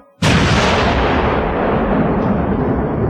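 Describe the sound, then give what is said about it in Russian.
A cannon fires when a torch is put to its fuse: one sudden, loud boom that rolls on into a long, steady roar and rumble. “спокойно поднес факел к затравке. Грянул гром.”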